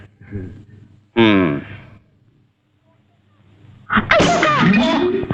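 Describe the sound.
A single sharp, loud sneeze bursts out after some faint sounds, and after a quiet pause people start talking.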